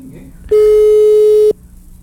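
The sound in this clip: A telephone busy-signal tone: one steady, loud electronic beep lasting about a second, low-pitched with a buzzy edge, set between quieter stretches of background noise.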